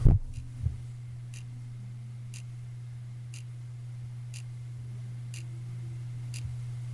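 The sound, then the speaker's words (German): An alarm clock ticks on a bookshelf. About seven faint, even ticks fall roughly a second apart over a steady low hum, after a brief handling thump at the start. “Muss man ganz genau hinhören. Ja, das ist ein Wecker”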